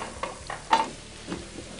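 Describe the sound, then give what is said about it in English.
Olive oil sizzles faintly in a frying pan, a soft, continuous hiss broken by a few light taps. “going to throw a little olive oil on the bottom of this. Just like Mom used to do. Grease the pan up.”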